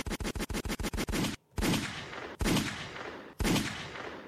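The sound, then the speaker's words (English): Gunshot sound effects: a rapid burst of sharp shots, then three heavier blasts spaced about a second apart. Each blast is loud and leaves a decaying tail. “gotta wake y'all up with them gunshots, man.”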